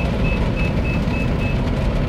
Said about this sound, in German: Irgendwie laufen jetzt Rollen am Auto vorbei, seitlich. Das begeistert mich nicht.